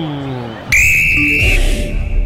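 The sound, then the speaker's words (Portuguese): A referee's whistle marks the start of the second half of a football match: one long, steady, shrill blast that cuts in after a commentator's voice and holds for nearly a second over crowd noise. “Apita pela primeira vez no jogo, Leonardo Rey”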